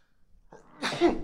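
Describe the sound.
A single sharp sneeze from a person: a faint lead-in followed by a loud, breathy burst that dies away quickly.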